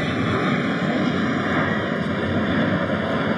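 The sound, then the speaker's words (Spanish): Steady drone of an airplane flying over a baseball game, a continuous broad roar with a few level humming tones held throughout, loud and unbroken with no voices. “Ahí viene el otro avión”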